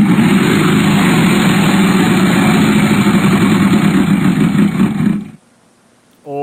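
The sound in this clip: A Wheel of Fortune game wheel spins at a Halloween game night with a dense, rapid clicking rattle, loud and steady for about five seconds before cutting off abruptly; a voice starts right at the end.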